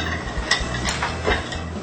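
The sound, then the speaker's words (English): Stirring of a mixture in cooking meant to be brought to a boil: a few soft scraping swishes recur over a low, steady background, fairly faint, with no talk. “Okay, that's good. All right, that's good enough. Mix that together.”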